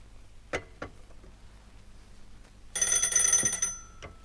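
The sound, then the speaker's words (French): A telephone bell rings in one bright, metallic burst of about a second, surrounded by faint clicks and low background hum. “Mademoiselle, on me sonne et je ne peux pas parler, il y a du monde sur la ligne.”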